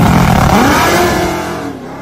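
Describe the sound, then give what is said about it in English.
A car engine with a Whipple 3.8 supercharger revs hard on a two-step launch limiter, a loud, dense roar with a rising tone that eases slightly toward the end. “Dude, it's on a two-step. It's on a Whipple 3.8. It's getting it.”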